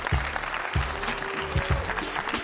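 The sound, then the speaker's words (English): Audience applause at a football team question-and-answer event, dense and loud clapping that fills the whole stretch without a break, with a few low thumps scattered through it. “give me a big time round of applause”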